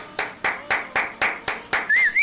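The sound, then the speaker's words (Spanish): Seven crisp hand claps in a steady, evenly spaced beat during a worship gathering, followed by a brief high whistle-like tone at the end. “pero le damos un aplauso a Dios,”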